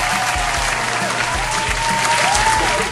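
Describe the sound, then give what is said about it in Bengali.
Quiz show audience gives a round of applause for contestants who answered correctly: many hands clapping in a dense, loud, unbroken wash that holds steady and tapers slightly at the very end. “যারা সঠিক উত্তর দিয়েছে দুরিয়ান তাদের জন্য একটা জোরে হাততালি।”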